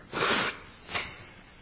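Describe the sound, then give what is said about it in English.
A person blows their nose right in front of a microphone: a long, breathy, rushing blast, then a shorter second puff, both soft overall. “Maybe it wasn't such a smart idea to blow my nose right in front of the microphone.”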